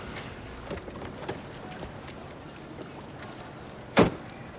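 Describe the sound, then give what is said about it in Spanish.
A car moving slowly along a deserted city street at night and coming to a stop: a faint, low engine hum runs beneath a few soft scattered clicks, followed by one sharp, loud click near the end. “un coche avanza parsimonioso por una solitaria calle de la ciudad en plena noche. Se detiene”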